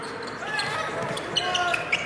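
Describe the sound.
A basketball is dribbled during an NBA game involving Utah, giving a few sharp, quick bounces in succession beneath a commentator's continuous voice.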